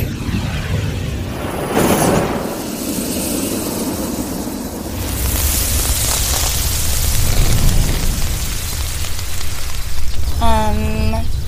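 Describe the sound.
Roaring flamethrower blasts light candles and set woods on fire. A broad, rough whooshing roar swells in bursts and stays strong and sustained, with a brief tonal voice-like cry near the end.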